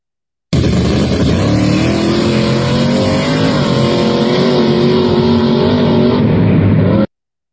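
Race-car engines at a no-prep trailer drag race: a loud, steady, unbroken engine roar lasting several seconds, then it cuts off suddenly, with no talk.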